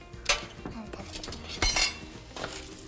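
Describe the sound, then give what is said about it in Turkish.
A metal oven baking tray is fetched and handled in a home kitchen, giving a few sharp metallic clanks and clatters over faint rattling. “Şimdi ben sana buradan fırın tepsimizi getireyim”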